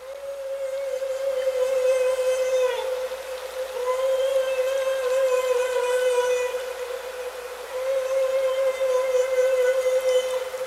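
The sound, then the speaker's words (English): A whale call of the kind used to scare fish: three long, steady, buzzy tonal calls rich in harmonics, each held for a few seconds and separated by short pauses, loud and alone. “What is this whale communicating? That's the fish scaring sound. That's scary. Yeah, that's the one that scares the fish.”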